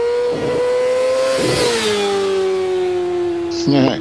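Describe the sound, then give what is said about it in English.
A racing vehicle with loud exhaust pipes gives a sustained, loud engine drone whose pitch slowly eases down, with a brief louder burst near the end. “find the sound effect. Loud Pipes Racing.”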